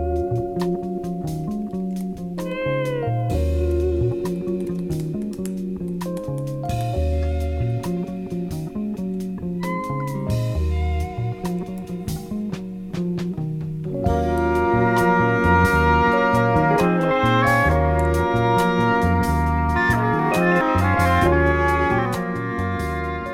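A jazz fusion song played from a record, with melodic keyboard-like lines over a steady bass groove, growing fuller and slightly louder in its second half.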